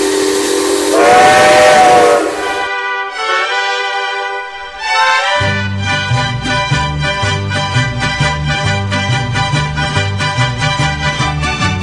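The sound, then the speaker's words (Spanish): Mariachi music imitating a steam locomotive starting: a loud, whistle-like held chord opens, followed by short rising phrases and then a steady, chugging rhythm in the low instruments beneath bright repeated notes. “La puesta en marcha de la locomotora se advierte claramente desde las primeras notas de este conocido son de mariachi.”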